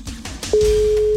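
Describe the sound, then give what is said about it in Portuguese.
Telephone ringback tone on a call, heard as one steady, mid-pitched tone that starts partway through and holds unbroken to the end, after a few soft clicks and rustles. “Primeiro toque, Lúcia. Segundo toque, Lúcia.”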